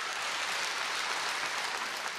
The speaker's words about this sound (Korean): 여러분, 자명 스님 그리고 이 승무를 전해준 신현우님에게도 큰 박수, 이 무대가 떠나가듯 큰 박수 보내주시기 바랍니다.